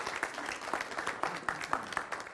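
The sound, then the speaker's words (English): A church audience claps its hands in continuous applause, with many overlapping claps forming a steady, dense patter throughout. “Give God a hand clap. Let's go.”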